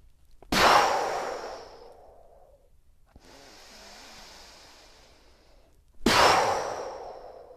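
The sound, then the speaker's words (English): Deep, full breathing during a breathing exercise: a forceful rushing breath, then a softer, longer airy breath, then another forceful breath, each filling and emptying the lungs with no talk. “Really filling up your lungs, and as you exhale, really bring all the air out. Few more.”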